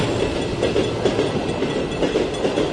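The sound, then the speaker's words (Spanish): A train passing at a station makes a steady, loud rumble with the rhythmic clickety-clack of wheels over the rail joints, with no voices. “Vamos a esperar que pase el tren y escuchamos LP.”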